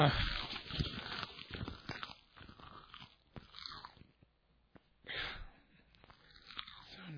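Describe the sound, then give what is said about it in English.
Seaweed is bitten and chewed in loud, close, crunchy bursts at an irregular rhythm, with quieter gaps of mouth noise between the bites. “I'm gonna eat some seaweed.”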